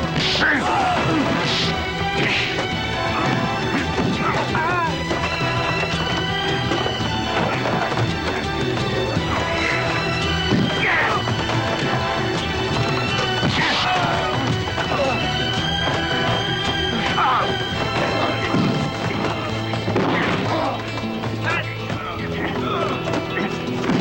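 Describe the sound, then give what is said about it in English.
Heavy smashes, whacks and thuds of a crowded brawl as a man beats on several attackers. The hits are dense, overlapping and loud throughout, with no pause in the struggle. “In a crush of bodies, Larson beats on his assailants.”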